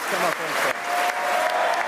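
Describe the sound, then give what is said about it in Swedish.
A crowd applauds Liz Truss's election as Conservative Party leader, a dense, continuous wash of clapping with voices cheering through it, loud and unbroken from start to finish. “Jubel alltså för Liz Truss då”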